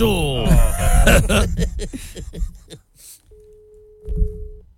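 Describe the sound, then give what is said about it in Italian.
A telephone busy signal: a single steady, mid-pitched tone held for about a second and a half. It comes after a stretch of talk, and a brief voice overlaps near its end. “A me sembrava che era linea occupata, faceva tu.”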